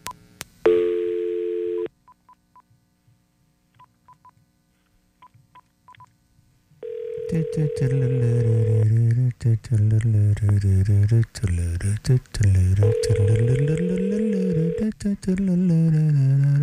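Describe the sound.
A telephone call is dialed with a short burst of touch-tone beeps, followed by a long near-silent wait with faint blips, then a voice speaks over a steady tone.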